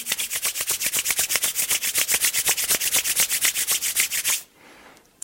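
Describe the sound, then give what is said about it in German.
Palms of the hands are rubbed briskly together in many quick, even back-and-forth strokes with a steady swishing rhythm, then stop abruptly, leaving near silence. “Und noch einmal. Handflächen aneinander reiben.”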